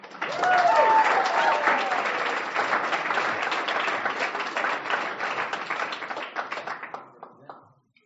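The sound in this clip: An audience bursts into warm applause to welcome a speaker at a meeting, clapping loud and steady for several seconds before thinning out and fading away.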